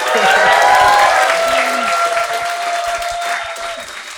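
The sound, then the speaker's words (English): Audience applause forms a dense, sustained patter of many hands that stays strong at first and then gradually eases off toward the end. “It's a shame he's not here to hear that applause, which I presume is for his excellent book.”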